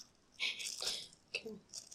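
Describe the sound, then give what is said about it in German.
A plastic bag holding two screws is handled, producing faint crinkling crunches and small rattles in a few short bursts. “ich habe hier gerade so eine Tüte mit 2 Schrauben drin.”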